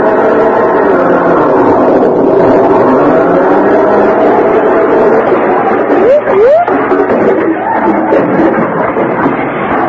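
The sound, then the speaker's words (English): A car drives across a lawn as a radio comedy sound effect: a loud, steady engine rumble runs throughout, with brief rising and falling tones cutting in partway through. “What are you two hoodlums think you're doing? Driving across my lawn with that car.”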